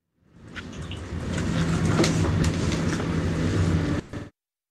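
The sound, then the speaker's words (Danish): Train noise over a phone line from a woman stuck on a delayed train: a broad, steady rumble that builds over a moment, holds for about four seconds and then cuts off abruptly. “Hun sad desværre i et tog, hun var fanget på grund af nogle forsinkelser.”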